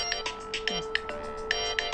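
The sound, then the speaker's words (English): Phone ringtone going off in the middle of a conversation: a bright electronic melody of short, high-pitched notes that repeat quickly and irregularly over a faint steady hum. “Oh, here. I turned off over here. I like your ringtone. I should have done that before.”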